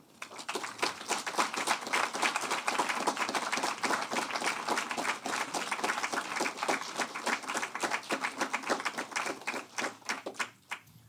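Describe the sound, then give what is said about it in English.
An audience applauds to welcome two authors onto the stage at a literary conversation event. The dense, continuous clapping lasts about ten seconds and thins out at the very end. “Please give them both a warm welcome.”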